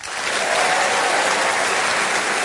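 Studio audience applause welcoming four panellists onto a comedy panel show: a dense, steady wash of clapping that swells within the first half second and stays loud and even to the end.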